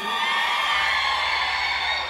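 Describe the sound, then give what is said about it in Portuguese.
A live concert crowd shouts and cheers in a loud, continuous roar of whoops and yells that holds at full strength throughout. “Solta o grito aqui, só quem tá feliz.”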